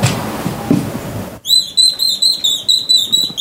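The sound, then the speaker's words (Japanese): A wooden bird call is sounded in a rapid run of many bright, high-pitched chirps, coming in a steady rhythm after a stretch of quieter low noise. “これ今バードコールです。”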